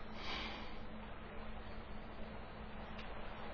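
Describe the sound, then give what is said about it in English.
A slow, deep breath drawn in through the nose and mouth, a steady airy rush that holds for several seconds, alone with no talking. “I am going to focus all of my attention on my breathing. In”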